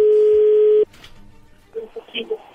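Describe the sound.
Telephone dialing tones: a loud, steady dial tone cuts off abruptly, then after a quiet gap a few short, uneven beeps follow.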